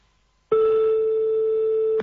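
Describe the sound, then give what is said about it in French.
A mobile phone being rung gives a single steady electronic telephone tone, loud and unbroken for about one and a half seconds, then cut off abruptly. “Attention, refais sonner de nouveau le portable de Sandy.”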